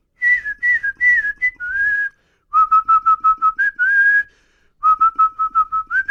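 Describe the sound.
A person whistles a rock song tune, loud and clear and alone, in three phrases of quick staccato notes mixed with longer held tones, separated by brief pauses.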